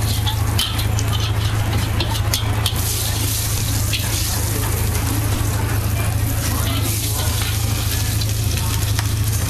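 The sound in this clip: Sizzling of prawns, egg, bean sprouts and flat and yellow noodles frying in oil. A loud, steady hiss runs throughout, with a low hum beneath and a few sharp clicks early on.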